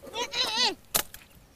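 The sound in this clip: A goat bleats once, a wavering, quavering cry lasting under a second, followed by a couple of brief sharp knocks.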